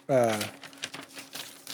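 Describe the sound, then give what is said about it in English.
Notebook paper rustles in a few soft, faint crinkling bursts, following a short voiced sound at the start. “I hear the fucking notebook paper.”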